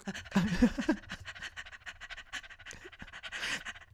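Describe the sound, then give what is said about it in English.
Heavy, rapid breathing in rhythmic panting bursts that continue throughout, fairly close and rough-edged, with the loudest huffs near the start. “I can hear your breathing over the popcorn shaking.”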